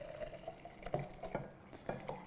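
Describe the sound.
Herbal tea poured through a tea strainer into a French press: a soft, fairly faint liquid trickle with a few brighter splashy bursts along the way.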